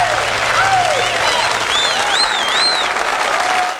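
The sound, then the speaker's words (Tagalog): Applause opens a Saturday afternoon show: a loud, steady wash of clapping runs the whole time, and voices are heard over it. “Siyempre, palakpakan tayo dahil Sabado na naman, alas tres na naman ang hapon.”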